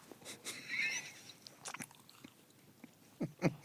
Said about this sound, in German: Ich überlege gerade, ob du, wenn du jetzt die Waffel isst, ob mal kurz Ruhe einkehrt oder ob wir das nächste Spiel spielen.